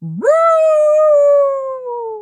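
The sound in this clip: A single drawn-out, howl-like bark from a small dog of about 22 pounds. It opens low, jumps sharply upward, then holds a clear, loud tone that slowly sinks toward the end.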